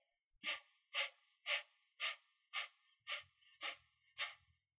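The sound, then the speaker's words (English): Eight forceful breaths exhaled sharply through the nose in a quick, even rhythm, each a short, loud hissing puff about half a second apart, with no talking. “Your inhale should happen quite naturally as a result of the forceful exhale. It will sound something like this.”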